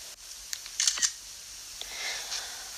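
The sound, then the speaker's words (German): A camera shutter fires as a photo is taken, giving a few crisp, bright clicks close together over a faint, steady background hiss. “Direkt ein Foto machen.”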